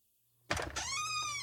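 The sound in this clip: A bathroom door being opened: a sudden sharp knock of the latch followed by a sustained, faint tonal creak that carries on steadily to the end.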